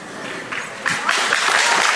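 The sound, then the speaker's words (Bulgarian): Applause from a crowd at a local-election campaign rally greeting a candidate, a continuous wash of clapping that swells louder partway through and stays dense to the end. “Аплодисменти за него.”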